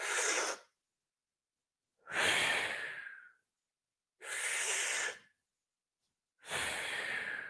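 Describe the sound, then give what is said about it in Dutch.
Four forceful breaths in a breathing exercise, each a strong rushing whoosh of air lasting about a second and separated by silent pauses. “En wat je dan eigenlijk doet, is 7 keer heel krachtig in en heel krachtig uitademen.”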